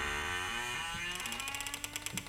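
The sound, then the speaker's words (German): Large city gates closing: a long groaning, harmonic creak, then a rhythmic run of ratcheting mechanical clicks, fairly faint and without voices. “Die Türen der Stadt schließen sich.”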